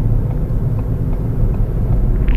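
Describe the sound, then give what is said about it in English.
A car engine rumbles on the Autobahn as the driver downshifts, heard as a dense, steady low drone of engine and road noise with no distinct gear-change moment standing out. “As I downshift here. And maybe we can go fast again.”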